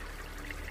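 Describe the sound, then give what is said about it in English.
A babbling stream plays from speakers in a rose garden, giving a soft, steady wash of trickling water that stays faint and even throughout, with no voices. “Why does he have the sound of a babbling stream playing on the speakers when the water dried up weeks ago?”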